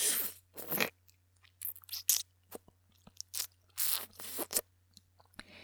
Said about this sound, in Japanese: 歯を立てていい？噛んでいい？もちろんいいわね。